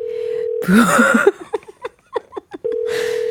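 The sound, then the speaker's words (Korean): Phone ringback tone while a call waits to be answered: a steady, even hum plays, breaks off for a loud burst of other noise and a string of short clicks, then resumes unchanged. “전화를 받으실까요?”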